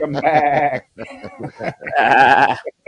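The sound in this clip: A goat bleats several times in quick succession, with wavering, nasal, mid-pitched cries separated by short gaps, loud and alone.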